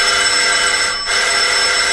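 An electric doorbell rings at a front door in a steady, loud, continuous tone for about two seconds, briefly dipping near the midpoint. No voices are heard.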